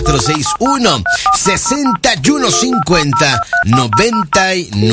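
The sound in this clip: A telephone number dialed to a phone booth, heard as a quick, loud series of paired touch-tone beeps running under a voice that talks throughout.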